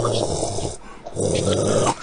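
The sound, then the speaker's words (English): Heavy breathing into a microphone: two rough, drawn-out breaths, close and moderately loud, separated by a short quiet pause. “And that's not me breathing in my mic. In fact, when you told me about that, my mic was off at that moment. Then who's breathing in their mic?”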